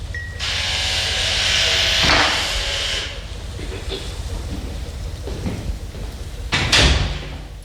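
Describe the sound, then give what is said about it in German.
An apartment door on the fourth floor opens with a long, fairly loud hissing rush, a couple of dull bumps breaking the steady noise. “Kurz darauf öffnete sich auch im vierten Stock die Wohnungstür”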